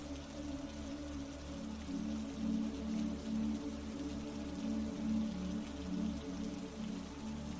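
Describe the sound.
Steady rain falls without pause, a dense even patter with gentle swells in loudness and no voices.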